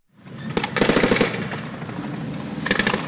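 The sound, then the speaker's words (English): Gunfire in a battle between two families in Libya: sharp shots leading into a rapid automatic burst, a rumbling stretch, then another quick volley near the end. “This is how disputes are settled in Libya. Guns. It's a battle between two families. It builds for hours and people run for cover.”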